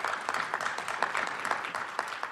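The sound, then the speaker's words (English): Applause, many hands clapping in a steady, dense patter at a moderate level that continues evenly throughout. “And then we have, yes, claps.”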